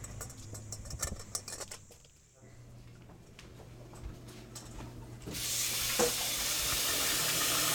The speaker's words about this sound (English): So I'm just going to give these guys a nice wash. Tomatillos sometimes have kind of a sticky residue on the outside of them, so just want to give that a rinse.